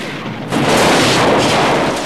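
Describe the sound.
A missile strikes a running robot and explodes in a ball of flames. A quieter hiss gives way to a sudden loud blast, which swells into a sustained, broad roaring rumble that fills the rest of the moment.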